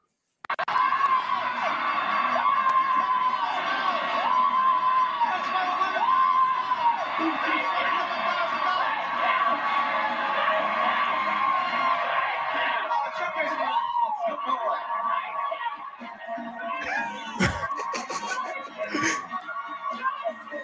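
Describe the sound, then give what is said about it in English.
A game show studio audience on The Price is Right cheers and roars continuously as a contestant who has just won $10,000 shouts in celebration, the loud, excited noise sustained for about twenty seconds. “this brother just won $10,000 on The Price is Right and just went into a full Baptist fit, shouting, worship, the whole deal.”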